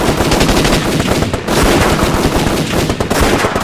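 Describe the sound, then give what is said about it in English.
Rapid automatic gunfire rattles nonstop as people shoot their way out of a trap, a dense, loud barrage of overlapping shots with a brief dip midway. “We'll have to shoot our way out.”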